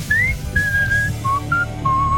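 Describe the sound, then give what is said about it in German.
A person whistles a short melody in clear, bright, sustained notes with brief gaps. The notes drift lower in pitch toward the end. “Du kannst toll pfeifen. Ja, ich soll ich das mal vormachen? Ja, mach mal. Kannst du?”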